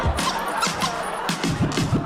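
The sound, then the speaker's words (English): A dog's squeaky toy being squeezed, giving many quick, high-pitched rubbery squeaks with bending pitch, coming thick and fast toward the end. “He got a bone and a squeaky toy.”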